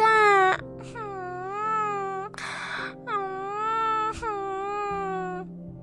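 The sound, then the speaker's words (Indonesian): A young girl cries in several long, wavering, high-pitched wails, sad at being stuck at home instead of at school. Each sob rises and dips in pitch, with a brief sniffling gasp between them. “kenapa cucu nenek nangis begini?”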